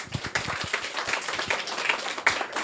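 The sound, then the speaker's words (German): Audience applause for a group of young participants at a youth hackathon event, many quick overlapping claps forming a fairly faint, steady patter. “Gut, dann nochmal ganz, ganz großen Applaus an die Jungs.”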